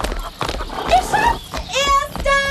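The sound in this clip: Galloping hoofbeats of horses ridden in a race toward a farmyard gate, a rapid drumming clip-clop with high whinnying neighs breaking through near the end.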